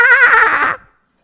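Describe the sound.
A voice imitates a newborn baby's first cry as a goat-like bleat: a single loud, wavering, nasal wail that lasts under a second and then stops abruptly into silence.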